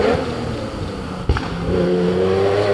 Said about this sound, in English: Sheer opulence. Lovely. Porsche 917.